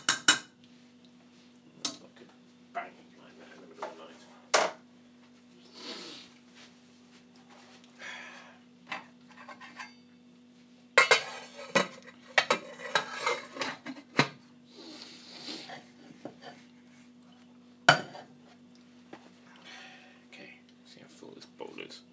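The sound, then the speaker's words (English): Assorted items dropping and clinking into a bowl too small to hold them: scattered, irregular clatters and light metallic clinks, with a busier flurry of knocks in the middle stretch and quieter gaps between. “I'm dropping more stuff because the bowl isn't big enough, of course. I knew the bowl wasn't big enough, but I didn't have another one handy.”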